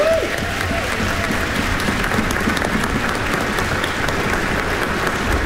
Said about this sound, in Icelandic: Og við skulum gefa Hrafnkeli Orra sem útsetti lögin svona fallega gott klapp. Bravo!